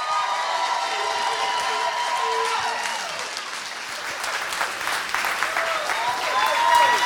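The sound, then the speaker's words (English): Applause and cheering from an audience welcoming a guest pastor: a dense, steady wash of clapping with scattered voices cheering through it. It stays loud throughout and swells slightly near the end. “Thank you guys for responding to that obligatory ovation.”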